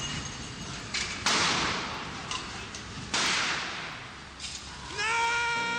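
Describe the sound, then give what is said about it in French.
Gunfire from a carabiniere at a protest where demonstrators surround a police vehicle: two sharp, loud cracks a couple of seconds apart. They cut through constant, dense crowd noise. “Pris de panique, un carabinier tire.”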